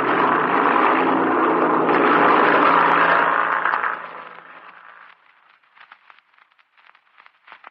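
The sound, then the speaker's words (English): An airplane engine roars steadily and loudly as the plane taxis out and takes off, then fades away after about four seconds, leaving only faint crackling. “I'm going to taxi out of ways, Chuck, and then take off to the north.”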